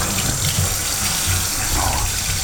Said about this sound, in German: Dann nochmal Hände waschen